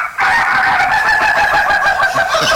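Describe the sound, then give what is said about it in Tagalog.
Chickens crowing: one loud, sustained, strained crow starts abruptly and holds a steady harmonic pitch to the end, with no speech. “sige taok manok”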